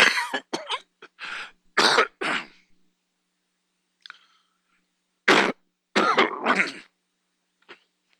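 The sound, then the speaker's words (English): A man coughs and clears his throat repeatedly during a church sermon. Loud, harsh bursts come in clusters, separated by quiet pauses. “I'm trying not to cough into this mic.”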